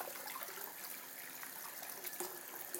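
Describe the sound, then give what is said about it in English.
Water runs from a kitchen tap into a sink as a coffee pot lid is rinsed: a faint, steady hiss of flowing water continues throughout, broken by a few small splashes. “Oh, that's just my sink,”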